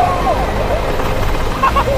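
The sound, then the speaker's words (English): A rescue helicopter arrives with a steady, loud, rushing roar that fills the whole moment, while voices call out over it. “Ah! Hey, that's our rescue helicopter.”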